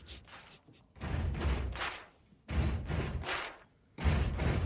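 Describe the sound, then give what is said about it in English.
A drum beat with heavy booming low thumps and bright, hissing cymbal-like bursts, coming in a few loud surges separated by short quieter gaps. “Who doesn't recognize that beat? Joining us this morning, the drummer responsible for what has to be the most recognizable beats in the history of modern music.”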